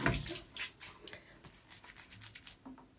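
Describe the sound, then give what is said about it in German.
A person washes their face under running water. Faint, irregular splashes and drips sit over a soft, steady watery hiss. “Jetzt mein Gesicht waschen.”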